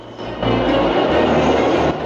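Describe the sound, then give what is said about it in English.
A train speeding along its tracks through green countryside with a forest beside the line. A loud, steady rumble runs unbroken through the whole clip. “A train speeds through green countryside. There's a forest to one side of the tracks.”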